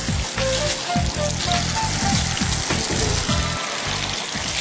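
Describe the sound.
Food frying in a well-heated pan, a steady sizzle with dense crackling and popping spatter throughout, with no voices.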